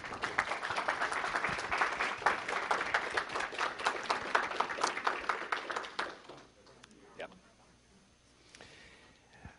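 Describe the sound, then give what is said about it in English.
Audience applause greets a speaker at a Musical Society archive event, with crisp clapping for about six seconds before it dies away into near quiet. “So without further ado, please give a warm welcome to Ken Fisher.”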